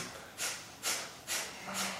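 Breath of fire during a yoga session in boat pose: four sharp, forceful nasal exhales in an even, quick rhythm, each a brief hissing burst of air with quiet gaps between.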